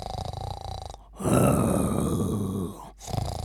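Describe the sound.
Snoring of a sleeping shop owner: a long, loud, rasping snore fills the middle, framed by shorter breathy, groaning sounds before and after.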